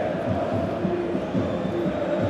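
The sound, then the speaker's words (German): Football fans cheering in a stadium as their team wins a corner kick, a sustained, dense crowd roar with chant-like tones running through it, holding an even loudness from start to finish. “Nächste Ecke, großer Jubel bei den PSW-Fans.”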